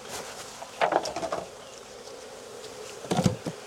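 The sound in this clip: Honeybees buzz at an open beehive while supers are centred over them. A faint, steady hum carries two clusters of louder, wavering buzzing, one near the start and one near the end.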